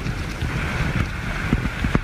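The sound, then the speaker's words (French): Strong wind blowing at a mountain base camp where a few tents are already set up, a steady roaring rush with low buffeting gusts and no voices. “On y arrive. Quelques tentes sont déjà montées. Il y a énormément de vent.”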